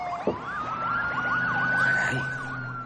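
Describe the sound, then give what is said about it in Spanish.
Sirens of two police patrol cars passing, a loud steady high tone layered with fast rising and falling wails. A low engine rumble runs underneath, with a brief thump near the start. “Pasan dos coches patrulla.”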